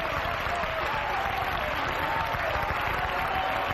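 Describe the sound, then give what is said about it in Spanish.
An audience applauding in praise of Jesus Christ during a worship service, a loud, dense and continuous wash of clapping that stays even from start to finish. “Denle un aplauso al Señor Jesucristo.”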